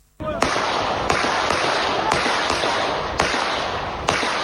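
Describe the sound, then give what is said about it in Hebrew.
Gunshots fired into the air on a Friday evening in a residential neighbourhood of Netanya: a series of sharp, loud cracks, roughly a second apart, over a constant hiss of noise. “ערב שבת, שכונת קריית השרון מנתניה, צורות ירי באוויר הקפיצו אלפי תושבים מבועלים, שהיו משוכנעים שמדובר במחבלים שחדרו לשכונה.”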